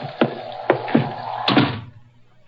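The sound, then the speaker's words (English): A heavy door is unbarred and opened: several dull wooden thuds and clunks at uneven intervals over a low steady rumble, ending with one more sharp knock. “One moment, gentlemen. I'll unbar the door.”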